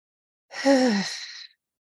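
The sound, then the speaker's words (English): A single deep, audible breath, taken slowly during a guided mindfulness meditation. It lasts about a second, with a soft, slightly voiced breathy tone that sinks a little in pitch before it stops. “And now we will do the second breath. Again, breathe in deeply.”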